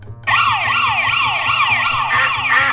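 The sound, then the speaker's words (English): Electronic siren wail from a police siren duck toy: loud, continuous, rapid up-and-down pitch sweeps repeating steadily without pause, alone with no talk. “police siren duck”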